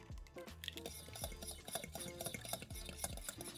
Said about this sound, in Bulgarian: На водна баня разбивам 3 жълтъка